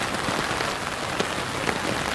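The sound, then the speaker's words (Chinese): Raindrops patter densely on an umbrella on a rainy, misty day, a steady bright crackle of countless small taps with a few sharper drops standing out, heard alone without voices. “听一下，这个雨滴滴答答打在雨伞上的声音，就像一首歌一样那么美。”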